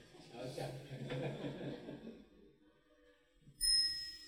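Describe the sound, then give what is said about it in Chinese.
A Buddhist hand chime (yinqing) is struck once after a stretch of talk, giving a bright, clear metallic ring that sustains on its own. “再敲一声吧，敲个引磬吧。”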